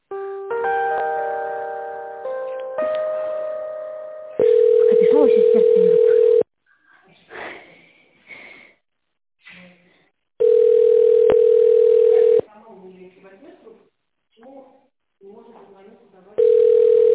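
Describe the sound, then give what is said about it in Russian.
Telephone ringback tone sounds as a call goes unanswered: three long, steady beeps of about two seconds each, separated by quieter gaps with faint voices, after a series of shifting electronic tones at the start. “Трубку не берет.”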